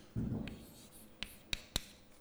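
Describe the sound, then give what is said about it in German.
Faint pen scratching as a physics equation is written by hand: a brief stroke, then three short, crisp ticks. “dann schreibe ich es auch auf”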